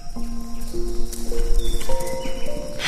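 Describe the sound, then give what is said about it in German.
Clip-clop of hooves as three brown horses run through trees, a continuous rapid trampling that stays fairly even in loudness, with steady tones held underneath. “und wenige Sekunden später kommen drei braune Pferde durch die Bäume gelaufen.”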